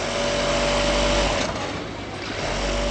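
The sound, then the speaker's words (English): Sewing machines running in a garment factory where many workers sit in long rows, making a dense, steady mechanical whir over a constant hum that continues unbroken throughout, with no talk. “Inside the factories, hundreds of women sit in long lines, leaning into their sewing machines.”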